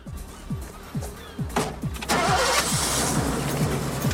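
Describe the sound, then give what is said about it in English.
A convertible Mustang's engine starts: the starter cranks in a quick, rhythmic series of low chugs, then the engine catches and settles into a steady, louder running roar. “They drive off, May behind the wheel of a convertible Mustang, Ray distracting her from driving.”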